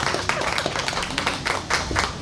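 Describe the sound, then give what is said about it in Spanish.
Spontaneous applause breaks out from an audience during a discussion on artificial intelligence. The brisk, steady clapping of many hands holds at an even level through the short stretch. “Un aplauso para aquí. Hasta un aplauso espontáneo, qué maravilla.”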